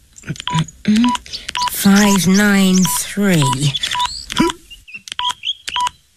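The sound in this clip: Telephone keypad tones sound as a phone number is dialed. Many short, crisp beeps come in quick bursts, with people talking between and over them.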